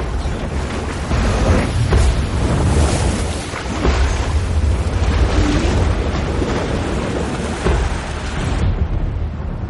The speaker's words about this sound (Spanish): El río forma grandes escalones que acaban en una gran cascada.